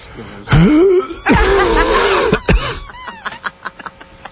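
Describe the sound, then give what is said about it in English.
Voice imitating wheezing by a person with bronchitis: a few strained, pitched vocal bursts with wavering tone, followed by shorter, fainter breathy sounds. “Listen to this. Ready? What does that sound like? I can make that noise. All right. That's wheezing.”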